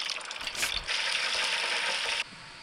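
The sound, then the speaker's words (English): Starch-dusted chicken wings frying in oil at 350 degrees give a loud, dense, crackling sizzle that holds steady, then drops away abruptly near the end. “Drop the chicken wings in the starch, dust off all the excess, and now tease them into the oil. Now we fry them for about 5 minutes at 350 and pulled them out.”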